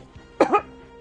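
A person gives a single brief, throaty cough from something stuck in the throat, breaking into two quick pulses. Quiet room tone surrounds it.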